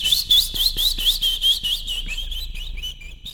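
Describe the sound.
A small bird chirps and tweets in a children's tale, giving a quick run of bright, rising whistled notes that repeat rhythmically and then soften into a smoother warbling trill.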